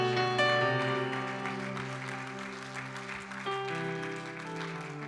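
A church audience applauds a guest preacher with moderate clapping that fades gently, heard alongside steady sustained tones.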